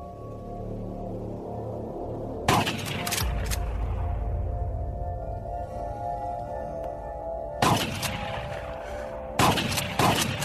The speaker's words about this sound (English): They then disfigure the corpse with a shotgun.